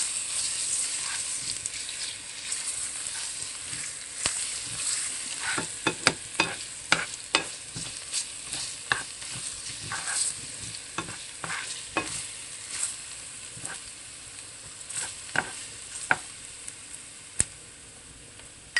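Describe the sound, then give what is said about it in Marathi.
Garlic paste sizzling and frying in a pan, stirred with many sharp scrapes and clicks over a steady frying hiss, with no talk. “लसूण paste व्यवस्थित परतून घेऊ।”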